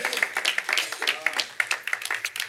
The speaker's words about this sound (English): Let's give God a hand clap of praise just for our musicians.